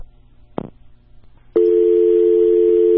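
A steady, unbroken telephone line tone sounds after a call is cut off. It starts abruptly with a click partway through and holds loud to the end, after a brief burst over a low hum.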